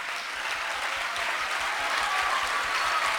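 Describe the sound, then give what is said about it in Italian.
Audience applause, a dense, continuous clatter of many hands that holds steady and swells slightly toward the end. “dovete scusare, l'affermazione non era fatta per avere l'applauso, perché non serve a questo”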